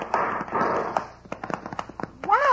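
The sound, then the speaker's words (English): Gunshots fired at a posse by convicts, heard as several sharp, cracking reports in an irregular burst between stretches of people talking. “He's got our range. They're shooting at us.”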